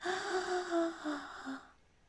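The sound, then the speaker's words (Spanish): A deep breath drawn in slowly through the body, a steady airy rush lasting under two seconds before it fades out, with no voices. “tomemos un respiro profundo y al momento de exhalar, dejemos ir la aflicción e impotencia que pueda recorrernos el cuerpo. Inhalo.”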